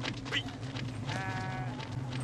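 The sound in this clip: A flock of sheep bleats over a steady noisy background: a short high bleat early on, then a longer wavering, quavering bleat in the middle, with a faint call near the end.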